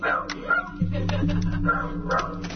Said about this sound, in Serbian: Ali ovo što se razleže su izgleda glasovi iz sobe iza zida, kod njih pas laje.